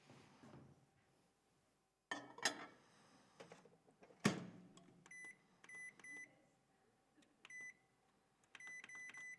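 An oven being closed and started: two solid clunks of the door and its controls, then several short, high electronic beeps in quick groups, with quiet gaps between them.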